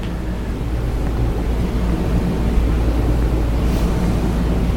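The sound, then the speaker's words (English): Water splashes as a swimmer demonstrates rear quadrant swimming, a continuous, loud wash of churning water and wind-like noise with no distinct separate strokes, and no voices. “I'm going to show you what rear quadrant swimming looks like.”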